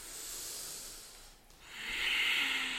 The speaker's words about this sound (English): An intentional breath in and out through your nose.